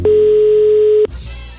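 An outgoing telephone call tone: one long, steady single-pitch beep lasting about a second, loud and continuous, cut off abruptly and followed by faint line noise. No voices.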